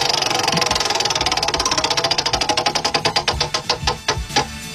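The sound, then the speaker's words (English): A prize wheel being spun gives off a rapid run of ticking clicks that gradually spread apart and grow more distinct as the wheel slows, with no talk over it. “All right, I'm going to spin the wheel. Here we go.”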